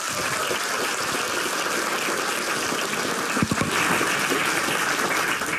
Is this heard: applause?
yes

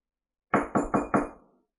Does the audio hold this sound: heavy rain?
no

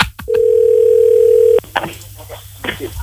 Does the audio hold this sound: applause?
no

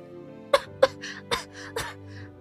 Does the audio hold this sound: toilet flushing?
no

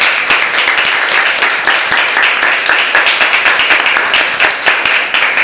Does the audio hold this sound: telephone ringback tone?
no

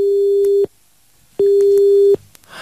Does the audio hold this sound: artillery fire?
no

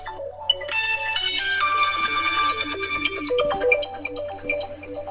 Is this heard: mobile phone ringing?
yes

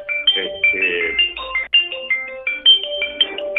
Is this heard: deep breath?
no

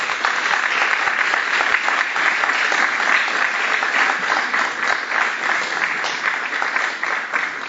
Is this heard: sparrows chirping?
no

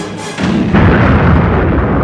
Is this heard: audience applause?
no

